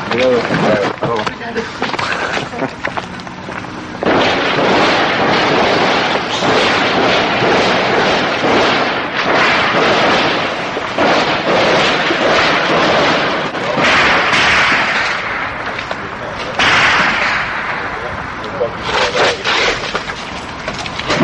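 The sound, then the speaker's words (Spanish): Heavy gunfire erupts about ten metres ahead in an armed conflict zone where a sniper is active, with loud, dense bursts of shots that crack almost without pause throughout. “Sin embargo, arreció el fuego 10 metros por delante de nosotros.”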